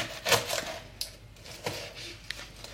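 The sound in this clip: A knife cuts the top and bottom off an onion on a cutting board, making a few faint, sharp knocks against the wood, spaced apart, with a soft crunch.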